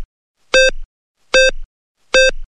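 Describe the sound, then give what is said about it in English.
Three loud, buzzy electronic beeps from a triggered security alarm, evenly spaced less than a second apart. Each beep is a bright harmonic tone with a short stuttering tail, and there is silence between them. “Alarm is triggered. Please disable within 30 seconds.”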